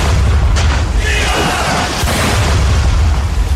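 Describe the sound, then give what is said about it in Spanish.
Heavy artillery fire in a naval battle between warships, heard as a loud, continuous low rumble with overlapping booming blasts throughout. “El combate comenzó con un intenso intercambio de artillería.”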